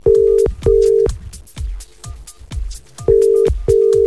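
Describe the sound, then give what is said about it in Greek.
A telephone call rings out with two pairs of short, steady buzzing ringback tones. The pairs are separated by a long pause holding a few quiet clicks, and the tones are loud with no voices. “Πάμε να καλέσουμε τον Αλέξανδρο. Για να δούμε.”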